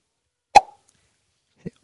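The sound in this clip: A voice imitates a cork popping out with one sharp mouth pop and a short hollow tone ringing briefly after it. A couple of faint lip or breath clicks follow in otherwise quiet surroundings.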